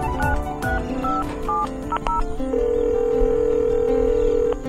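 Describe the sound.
A mobile phone dialing a number: a quick run of short keypad tones at varying pitches, followed by a longer steady tone, all fairly loud over a busy background.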